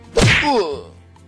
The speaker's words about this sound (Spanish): Pero señor, ¿por qué me golpea?